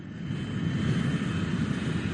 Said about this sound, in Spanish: Estamos en el aeropuerto, en la pista de aterrizaje, ahora mismo.